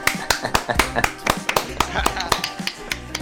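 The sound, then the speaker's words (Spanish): Group applause with irregular, sharp claps from a small group of people, scattered and uneven rather than a dense roar, with voices audible alongside. “Vamos a darnos un aplauso, por favor, chicos. Ayudadme.”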